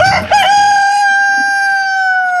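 Rooster crowing on a small organic egg farm home to over 500 free-range birds: one long, loud, sustained crow holds a steady pitch for about two seconds after a brief rough onset.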